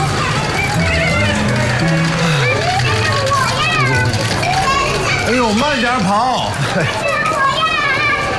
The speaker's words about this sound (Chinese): 我们这弄堂里的小孩啊，永远都精力这么充沛，回头你就知道了，想睡个懒觉都睡不着。